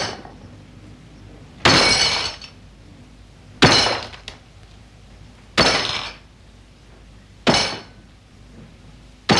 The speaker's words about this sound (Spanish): cubre con un paño una gallina de barro y la golpea con un martillo.